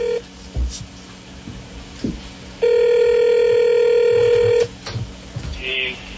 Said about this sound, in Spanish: el equipo investigativo Vox Populi logró captar una llamada muy particular que alguien le hizo al presidente a raíz de esto. Óiganla, oigan este sonido, oigan.